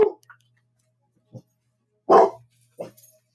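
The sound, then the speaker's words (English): A dog barking at a noise outside the house: a few short, sharp barks spaced by silence, the loudest coming near the middle. “There was some sort of noise outside the house that got the dog's attention.”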